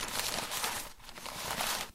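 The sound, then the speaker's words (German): Gift wrapping paper is torn open: about two seconds of continuous, fairly faint crinkling and ripping paper noise with no voices. “reißt voller Vorfreude ihr Geschenk auf.”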